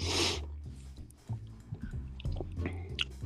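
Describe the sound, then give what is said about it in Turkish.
Sniffling from a nose stuffed up by a cold: a sharp, breathy sniff at the start, then softer wet snuffling and snorting noises, quiet and irregular. “Kaliteli bir soğuk yemişsin abi. Evet ya, çok mu çekiyorum burnumu?”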